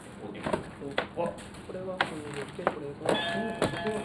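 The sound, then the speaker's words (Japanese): Electronic beeping from a glittery toy, a string of short, bright chirps repeating in quick bursts while people talk over them. “めっちゃピコピコ鳴らすやん。”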